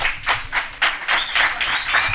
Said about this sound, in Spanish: Hay empate, un aplauso para los que sean de Taque Cubo.